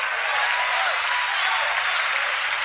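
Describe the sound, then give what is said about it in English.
Audience clapping, a steady dense patter of many hands that holds at an even level throughout, with no talk over it. “Now, it's funny how people are like clapping right now because we know the end of the story.”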